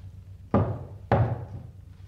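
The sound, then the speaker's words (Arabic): Someone knocks twice on a gate. Each knock is a heavy, sharp thud, about half a second apart, and each fades quickly into quiet. “ووقف يطرق البوابة.”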